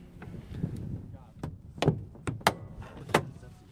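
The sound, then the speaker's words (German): Canopy of a two-seat ASK glider being shut and locked before a winch launch: a few sharp clunks and latching clicks over a low, uneven rumble. “Haube müssen wir jetzt schließen und verriegeln, dann geht's los.”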